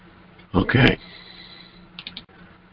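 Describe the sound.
Computer mouse clicks: a few quick, soft clicks close together, following a short burst of speech.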